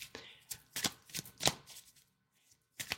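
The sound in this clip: Oracle cards being shuffled before one is drawn, heard as several quick, crisp riffling bursts in a steady rhythm, then a short silence and one final shuffle, fairly faint throughout.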